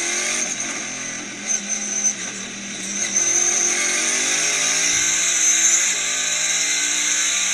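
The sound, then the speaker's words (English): A car engine revs in a continuous, loud, gritty roar whose pitch climbs gradually over several seconds, with no voices. “Now that is a fucking motor. Dirty.”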